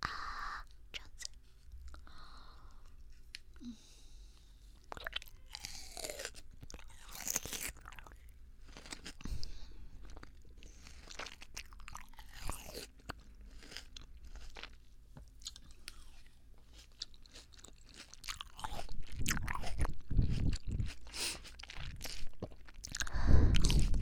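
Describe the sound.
Someone chews freshly cut fruit in the morning with many moist, crunchy bites and squishy munching in an irregular rhythm. The chewing stays faint at first and grows louder toward the end.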